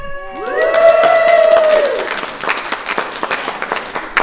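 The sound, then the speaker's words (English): A group in Iceland lets out a long sustained whoop, then breaks into scattered clapping and cheers that continue in uneven bursts. “I'm going to go ahead and give a round of applause to everyone here in”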